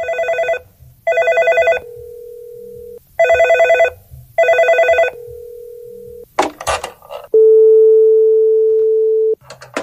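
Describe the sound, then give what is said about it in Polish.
A telephone ringing while a caller keeps trying to reach someone: four buzzing ring bursts in two pairs, each pair followed by a steady lower tone, then a few clicks and a long, loud continuous beep. “próbujemy się ciągle do niego dodzwonić.”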